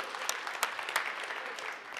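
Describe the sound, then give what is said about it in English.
Applause from an audience thanking a tech team, faint and scattered, with a few sharper claps standing out over a soft, steady patter. “I want to say thank you to our tech team. Can we get a cheer?”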